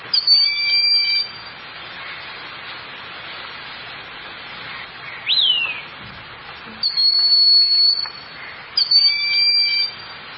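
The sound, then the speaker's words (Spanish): A migratory hawk calling in the field on a university campus: shrill, high screeching bursts of rapidly repeated notes that come a few times with pauses, plus one brief descending whistle, over steady background hiss. “Entonces este como chillido de rapaz devela la presencia de este gavilán migratorio en el campo.”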